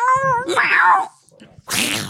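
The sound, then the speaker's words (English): A person imitating a cat with meows: drawn-out, wavering, nasal calls, then a short pause and a breathy, hiss-like burst at the end. “So I might have to add in a few meows.”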